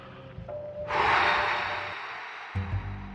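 A woman lets out a long, heavy exhale, as if she has spent a lot of energy. The breathy rush starts abruptly, is loud at first and fades slowly over about a second and a half.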